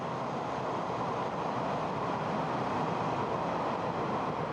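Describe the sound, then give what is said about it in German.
A moving train gives off a continuous, even rush and rumble, fairly faint and unchanging for the whole stretch. “Weiter unterwegs nun wieder Richtung Norden. Mit der Bahn.”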